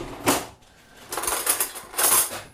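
Metal cutlery, a knife and fork, being laid on a table set for dessert: a few bright metallic clinks and clatters in separate short bursts with quiet gaps between.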